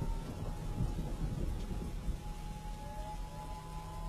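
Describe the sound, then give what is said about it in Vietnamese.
Heavy rain pours during a night thunderstorm over a village, a dense, unbroken hiss with low rumbling thunder beneath, fairly faint and steady throughout. “Đêm hôm mưa gió, sấm đánh đình đùng như là chống duyệt binh.”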